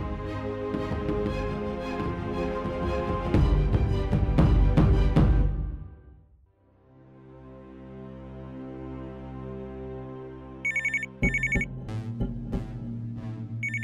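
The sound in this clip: A telephone in an apartment gives a few short bursts of electronic ringing near the end, after music fades. Low music tones continue beneath the rings.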